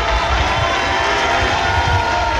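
Loud, dense applause comes from the stands at a formal ceremony in a hall of honor, a steady, unbroken wash of clapping and crowd noise throughout.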